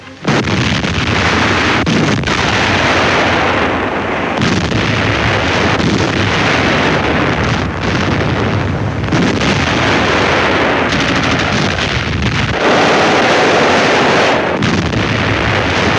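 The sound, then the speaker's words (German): Artillery and infantry fire during a Soviet attack in the battle of Stalingrad: a dense, unbroken barrage of gunshots and heavy blasts, loud and continuous throughout with no voices. “Die Sowjets greifen an. Im Feuer unserer Artillerie und Infanterie bricht jedoch ihr Durchbruchsversuch zusammen.”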